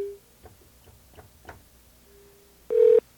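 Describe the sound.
Telephone keypad pressed to enter a code: a few soft clicking key presses in an uneven rhythm, a faint steady tone, then one loud, short beep at the end.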